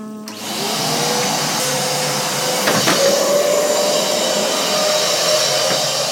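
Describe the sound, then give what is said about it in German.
A vacuum cleaner sucks up organic rice cake crumbs from the floor, a loud, steady roaring drone with a thin whining tone that runs without a break and a brief knock partway through. “Serge ist plötzlich aufgesprungen und, ups, saugt sehr gründlich mit dem Staubsauger die Krümel einer Bio-Reiswaffel direkt vor unseren Füßen auf.”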